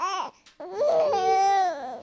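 A baby girl, the youngest sister, crying and fussing: a short voiced cry, a brief gap, then a longer wavering, fairly loud cry with a steady high pitch.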